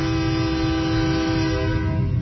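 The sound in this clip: A train horn blares in one loud, steady, sustained tone rich in harmonics, unbroken for about two seconds.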